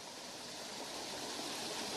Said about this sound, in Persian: آب اینجا تیز میاد، از بالا آب میاد طرف پایین و اینجا چقدر یک فضای مقبول و دیدنی شده، یک جای بسیار مقبول و دیدنی. از اون بالا جوچه آب است که به بسیار شدت میاد این قسمت طرف پایین.